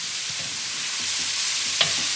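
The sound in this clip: Food sizzles and roasts in a pan on a gas stove as a spoon stirs it, giving a steady hiss with soft scraping and one sharper clink near the end.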